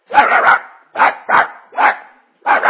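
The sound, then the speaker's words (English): A neighbor's dog, let outside at 4 a.m., barks over and over in loud, sharp bursts. A cluster of quick barks is followed by several single barks spaced by short pauses, with no talk. “one of my neighbors was letting their dog out like at 4 a.m. And it would bark from 4 to 7, right when I was in my best sleep”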